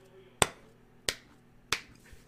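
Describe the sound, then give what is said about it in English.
Three sharp hand claps, evenly spaced and unaccompanied, standing in for a small gnome clapping his hands in a fantasy role-play story. “Clapping his hands, like,”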